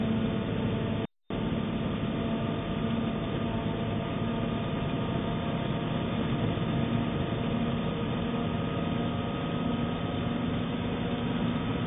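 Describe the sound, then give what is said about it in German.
A turbocharged engine held at full throttle with its revs down to 2000 gives a steady, dense droning roar that stays constant, with a split-second cutout near the start. “Drehzahl ist auf 2000 runtergegangen. Bleibe bei Vollgas.”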